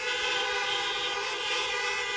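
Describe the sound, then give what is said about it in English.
Many car horns blare together in a parking lot as a church gathering honks on cue, a dense, steady, loud chorus of overlapping tones that holds without a break for the whole stretch. “go ahead and beep your horns right now.”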